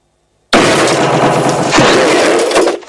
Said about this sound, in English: A desolate landscape of sun-bleached sand and rock, then a shield raised and crushed by a club.